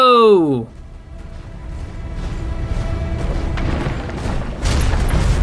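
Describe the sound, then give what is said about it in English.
Mech weapons fire and explode in a video game, making a steady roaring barrage of rumble and crackle after a brief tonal sound at the start, and swelling louder near the end. “We're gonna fire those weapons. Center torso destroyed.”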